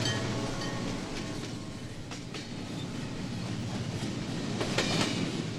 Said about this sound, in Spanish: Ese tren.